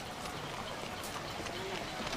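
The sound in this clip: Footsteps of a man walking after getting out of a car: a few faint, soft steps over a low, constant background hiss.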